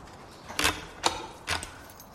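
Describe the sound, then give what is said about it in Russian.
A key taken from the wall locks a classroom door: three short metallic clicks and rattles at an uneven pace, with quiet between them. “Сняв со стены ключ, закрывает дверь.”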